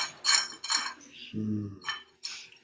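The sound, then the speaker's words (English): Bowls clink as they are unwrapped from cloth, a few bright, sharp clinks and rustles spread across the moment, with a brief low tonal hum in the middle. “And so I open them up, and there they are. Two bowls, the inner bowls, all solid, cool, round circles.”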